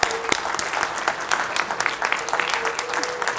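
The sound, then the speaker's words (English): Applause from an audience at a movie screening, dense and lively clapping that keeps an even level throughout. “I want to give you guys and gals a round of applause.”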